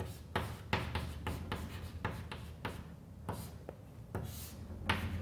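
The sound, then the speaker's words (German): Handwriting while working out a math calculation of a divergence: many quick, scratchy strokes in an irregular rhythm at a fairly soft, even level, with no voices. “also schreibe ich es mal hin”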